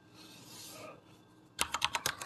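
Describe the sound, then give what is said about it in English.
Rapid clicking of keys as someone types a quote on a computer keyboard, a quick burst of crisp keystrokes following a stretch of faint hiss. “I'm going to type the quote in right now.”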